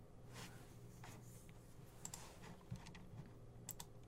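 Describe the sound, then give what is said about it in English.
Faint computer keyboard typing as a single word is keyed in. A few scattered, light keystroke clicks tap out at an uneven pace over a quiet background. “So I'm going to type in a word”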